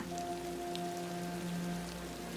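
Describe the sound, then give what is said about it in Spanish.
Gentle rain falling on a garden with a koi pond, a faint, even patter of drops that holds steady under soft sustained musical tones. “El jardín parece respirar con la lluvia,”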